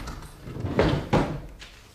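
Two short wooden knocks as a locked desk drawer is opened, the second thud a little sharper, each brief and moderately loud with quiet in between.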